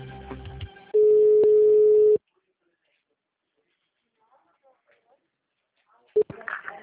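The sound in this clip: A loud, steady single-pitched telephone tone after a dropped call, holding unbroken for just over a second, then cutting off into silence. A brief voice and some noise come before it, and a short burst of voice follows at the end.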